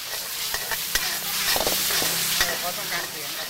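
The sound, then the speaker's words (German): Minced chicken with chili and basil is stir-fried in a wok in Bangkok. A loud, steady sizzle runs throughout, broken by frequent sharp scrapes and clinks of the utensil against the pan. “Aus dem Wok wabern stechende Chili-Dämpfe, die sogar dem Koch die Tränen in die Augen treiben. Es gibt Hähnchengehacktes, scharf angebraten mit Chili und Basilikum.”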